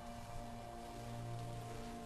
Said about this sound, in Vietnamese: tiếng vọng lại của cơn mưa tầm tã